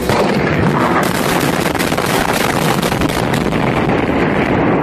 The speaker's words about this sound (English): Charges explode behind me here, and there is no collapse yet at this point, but they just went around and you can feel the concussions of them as smoke begins to rise